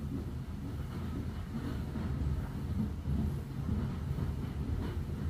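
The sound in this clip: Train carriage ambience in a mahogany-panelled corridor lined with cabins: a steady low rumble and hiss of the moving train at a constant, fairly quiet level, with no voices.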